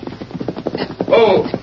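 A horse gallops hard in a quick, rhythmic clatter of many hoofbeats, loud and unbroken across the short stretch.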